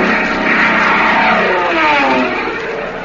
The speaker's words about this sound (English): I feel so much better now that I know I'm a P-38.